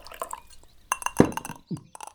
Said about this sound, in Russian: Я выпью воды